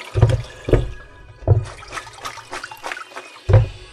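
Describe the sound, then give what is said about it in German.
Running water from a tap as lettuce is washed for a salad, a steady splashing stream broken by a few heavier gushes and splashes, with no talk over it. “Dann waschen wir den Salat eben.”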